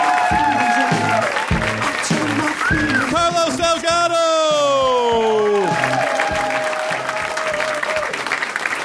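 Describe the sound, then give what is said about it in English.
Applause from a comedy-show audience, with steady clapping and some cheering across about nine seconds, and loud voices and tonal sounds layered over it. “And this is where you clap.”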